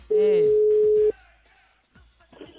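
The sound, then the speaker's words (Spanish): An outgoing telephone call being dialed gives one long, steady, loud ringing tone of about a second, with faint voice sounds before and after it. “Cuelguen sus celulares, manténganlos libres, porque la producción les está marcando en este momento. Subimos la llamada, luego.”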